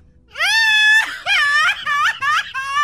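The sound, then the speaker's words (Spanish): Crying and screaming voice during a game show: a long rising wail, then several shorter broken sobbing cries, loud, with no other talk. “¿Quién llora y grita?”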